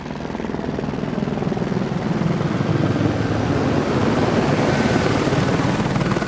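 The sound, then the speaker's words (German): A police helicopter sweeps in a wide arc over a mountain training centre before landing on a nearby alpine meadow. Its steady, loud rotor chop and engine drone grow slightly louder as it passes. “Ein Polizeihubschrauber fliegt im großen Bogen über das Ausbildungszentrum, bevor er in der Nähe auf einer Alm landet.”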